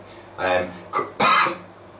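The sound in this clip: A person with a constricted throat clears their throat and coughs in three short, rough, breathy bursts. The last burst is the loudest.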